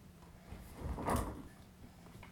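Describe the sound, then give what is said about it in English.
A drawer is opened at home: one soft, rumbling slide that swells near the middle and fades, with no voices. “Oh, no, don't open the drawers.”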